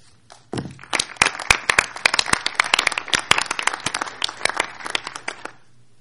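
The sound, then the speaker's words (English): Loud applause from a council meeting as a resolution passes by acclamation: many hands clap in dense, rapid crackling bursts that swell quickly and carry steadily for several seconds before fading at the end. “I propose that we pass that resolution by acclamation.”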